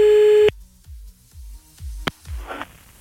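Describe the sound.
Telephone line at the end of a call giving off a steady, shrill, harmonic-rich tone that cuts off abruptly, followed by a few dull thumps, a sharp click and a patch of crackling static.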